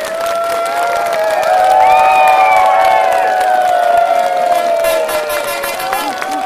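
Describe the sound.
A crowd at a gathering applauds and shouts together, with loud, sustained cheering voices and clapping running throughout at a steady level.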